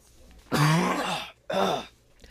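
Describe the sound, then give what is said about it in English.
Two rough, throaty coughs from a person, a longer burst followed by a shorter one after a brief pause, loud and alone with no talk. “I try to pause, but sometimes the coughs just sneak up on me.”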